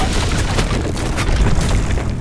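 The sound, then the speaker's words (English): Sci-fi pulse blasts rip through the air and strike a rooftop edge. The result is a loud, continuous wash of booming, crackling noise with a few sharper bursts rising out of the steady roar. “Pulse blasts rip through the air and impact wildly on the rooftop's edge.”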